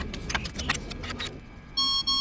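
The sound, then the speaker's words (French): A spaceship's temperature alarms go off as the hull overheats near the sun. Scattered clatter comes first, then a bright, high electronic beep tone sounds twice in quick succession. “Ah, c'est l'alarme de température. Ah non, ce sont les alarmes de température.”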